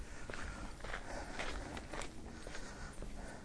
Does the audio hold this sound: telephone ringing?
no